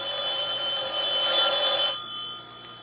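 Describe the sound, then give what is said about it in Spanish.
A telephone rings with a steady, trilling electronic bell tone for about two seconds, then falls to a quieter lingering tail, heard alone without voices. “Tendré que ir a contestar yo porque parece que Celia no acude.”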